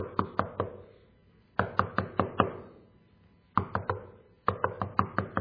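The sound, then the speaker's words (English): Knocking on a door comes as crisp, rapid raps in four separate bursts of a few knocks each, with short silent pauses between the bursts. “Don't pound on the door or knock incessantly. Okay, don't sound aggressive when you're knocking on the door.”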